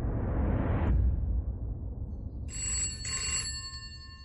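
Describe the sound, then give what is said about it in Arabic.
A telephone bell rings in an afternoon scene of a murder-mystery drama. After a low whooshing rumble fades, the bright, metallic ring comes in a couple of quick bursts with a brief gap, and fainter ringing tones linger at the end. “استدعي للإجابة على الهاتف بعد ظهر اليوم الثاني.”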